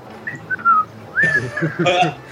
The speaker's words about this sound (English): walking away whistling